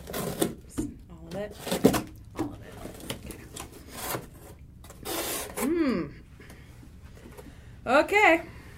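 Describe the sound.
Adhesive tape is pulled off in several short, scratchy rasping rips at uneven intervals, with brief voiced exclamations between them.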